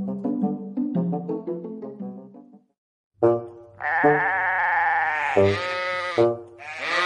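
Sheep bleat loudly with no talk: a run of quick, quavering bleats, a short silence, then several longer, fuller bleats that overlap.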